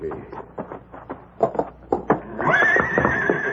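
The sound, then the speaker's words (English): A stallion in a barn stall gives a long, loud, high whinny near the end, after a series of sharp knocking thuds at an uneven pace. “we'll go to the barn and get this saddle on the Gila stallion.”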